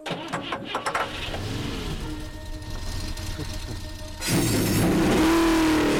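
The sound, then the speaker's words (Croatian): Race car engines fire up together at the start of a race. A low, uneven rumble gives way after about four seconds to a loud, steady roar of several engines running at once. “Gospodo, pali motore.”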